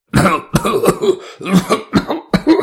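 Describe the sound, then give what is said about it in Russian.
A man's harsh, hacking cough rings out in a run of rough, rasping bursts. They come in quick uneven succession and stay loud throughout. “Раздался надрывный кашель Николая.”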